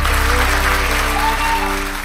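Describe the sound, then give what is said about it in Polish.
Applause after a live performance on a radio program: a dense, continuous wash of clapping with a stepping musical tone line beneath it, fading slightly at the end. “Pietrucha Zalewska, wielkie brawa.”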